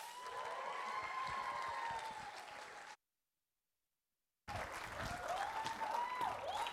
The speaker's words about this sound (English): So, man, can y'all give it up for Alec?